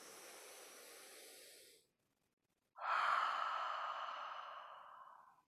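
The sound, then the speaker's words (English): A slow, deep breath taken during a chakra breathing exercise: a soft, airy hissing inhale of about two seconds, a short silent pause, then a longer, fuller exhale that gradually fades, quiet and with no talk. “And then one more breath there.”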